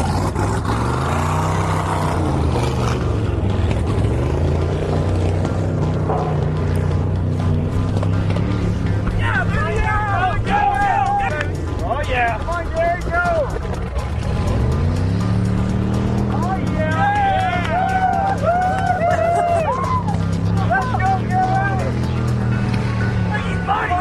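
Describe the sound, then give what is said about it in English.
Ford Model T cars racing, stuck on a bank and going into reverse to crank around: a steady, rough engine drone fills the whole stretch while a commentator talks over it. “Model T's got a little stuck in the bank there, so they're going into reverse, and they're going to try and crank it around.”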